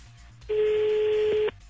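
A single ringing tone from an outgoing telephone call, waiting for someone to pick up. One steady, even tone lasts about a second and then cuts off, with no voices over it.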